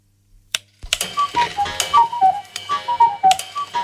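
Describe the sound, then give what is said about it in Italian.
A clock ticks steadily as part of a radio time-signal jingle from an atomic clock, with a short chiming melody of light tones running over the ticking. “All'orologio atomico di Radio Ciroma sono le ore 10 e 39 minuti.”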